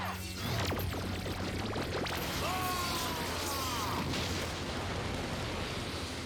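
A roaring special-attack blast explosion from a video game bursts in after half a second and sustains as dense, crackling noise threaded with whooshing tonal swoops, staying loud throughout.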